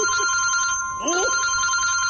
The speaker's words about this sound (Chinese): 来、嗯、电话了， 我爹来电话了